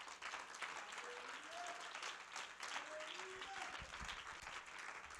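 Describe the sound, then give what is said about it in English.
An audience clapping hands during a church service, bright and continuous applause with voices rising over the clapping at times. “Would you clap your hands to the Lord?”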